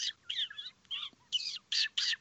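A person imitates a fantail, a small New Zealand bird, with quiet, high, tweety chirps and squeaky smooching sounds in several short, uneven bursts.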